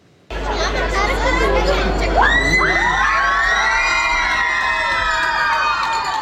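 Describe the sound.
Crowd cheering at a welcome for a returning world champion, dense loud babble with high, rising children's shouts and squeals, sustained throughout.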